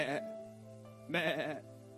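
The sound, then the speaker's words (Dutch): A lamb taken away from its mother bleats twice, giving two loud, wavering, nasal cries separated by about a second of quiet. “Maar als je een lam bij het moederschap weghaalt, en dan gaat het de hele dag blaten.”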